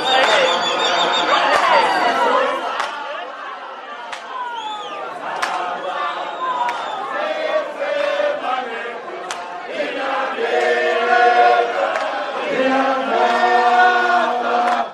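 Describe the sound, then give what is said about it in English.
A large crowd of ANC Gauteng delegates in Pretoria roars at the announcement of Cyril Ramaphosa as preferred candidate, with loud, dense cheering and chatter giving way to sustained group singing that stays strong throughout. “The announcement of preferred candidates was welcomed by a huge noise, followed by singing.”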